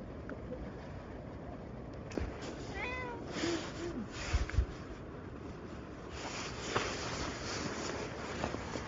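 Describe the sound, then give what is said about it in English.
A stray cat meows, a few short, wavering calls that sit faintly above a steady background hiss, with light thumps and rustling nearby. “There's been a cat hanging around the area. I'm going to have a conversation with it, see what it's up to.”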